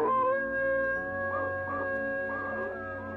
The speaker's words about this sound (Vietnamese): Bầy chó nhìn ông cụ rồi đột nhiên chu lên những hồi ai oán.